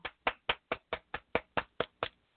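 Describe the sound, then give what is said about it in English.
Hand claps welcome a guest onto a show: ten crisp, evenly spaced claps in a steady rhythm, fairly faint and heard alone, ending in a brief silence. “Y'all give him a round of applause.”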